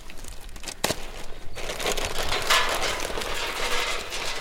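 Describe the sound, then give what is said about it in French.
Small pieces of alder wood go into a fish smoker: a sharp knock or two, then a dry, continuous rustling and crinkling. “Je mets les petits morceaux de aulne d'abord.”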